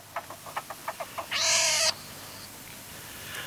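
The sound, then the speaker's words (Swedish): Young martens (marten kits) calling: a quick run of short, evenly spaced chirps, then one longer, loud, harsh squealing cry, followed by quiet. “då måste vi lyssna lite på hur det låter om mårdungar.”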